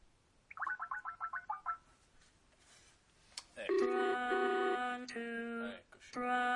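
Telephone redialing a call. A quick run of bright dialing beeps is followed by a loud, sustained buzzy ringing tone that holds steady and breaks off briefly near the end.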